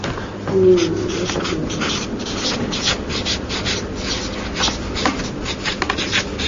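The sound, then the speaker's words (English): Handwriting strokes as someone writes a word by hand, heard as steady rubbing and scratching with small bursts of sharper marks throughout. “Let me write the word resurrection up here too.”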